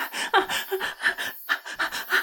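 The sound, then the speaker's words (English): Breathless, ragged panting from someone shaky and weak who cannot catch their breath: a quick, steady run of many sharp, gasping breaths, fairly loud and wordless. “I can't catch my breath, I can't.”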